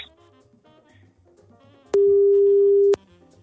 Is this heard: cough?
no